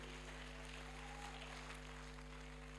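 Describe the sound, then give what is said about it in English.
A church audience claps to welcome a preacher on stage, a soft, continuous patter of many hands heard faintly beneath a steady low electrical hum. “Then with us rising up and clapping and making some shout, let's invite him upstage.”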